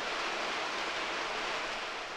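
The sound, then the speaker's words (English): Torrential downpour with strong wind during a South Dakota thunderstorm, an even, unbroken roar of hissing rain, steady and loud throughout with no talk. “Looks like the wind is blowing heavily, and the rain is just torrential downpour right now.”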